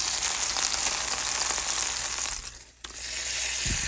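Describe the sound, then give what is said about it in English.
Margarine sizzles and fries in a skillet, a steady, dense crackling hiss that dips briefly near the end before picking back up. “I hate cooking margarine. I mean, it like burns up the skillet almost, and it makes your stuff all brown.”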